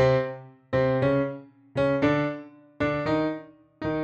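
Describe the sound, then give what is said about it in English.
A clean electric guitar part climbs chromatically, playing several separate ringing notes in short groups, each sustained and decaying before the next, heard alone without other instruments. “One of the guitars is moving along with the bass, going up chromatically. It sounds like this.”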